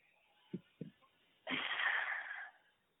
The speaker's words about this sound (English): take a deep breath through the mouth. And exhale.